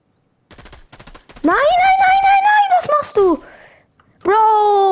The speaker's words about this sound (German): Warte, ich versuche zu Headshot snipen.